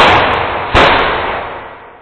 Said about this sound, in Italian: Due altre detonazioni rimbombarono.